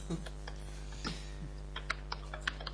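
Sparse, faint typing on a computer keyboard, a few scattered key clicks over a steady low electrical hum.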